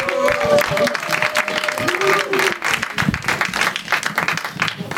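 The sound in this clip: An audience applauds as a presenter welcomes the next guest. A voice is heard over the start, then the clapping and crowd noise carry on irregularly to the end.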